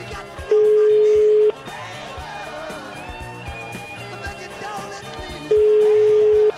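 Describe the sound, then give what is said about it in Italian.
A telephone ringing on the line, heard as two long, steady, even-pitched ring tones about a second each, with a stretch of quieter mixed background sound between them. “Facciamo un tentativo, squilla il telefono, eh? Tutto in diretta, fermi.”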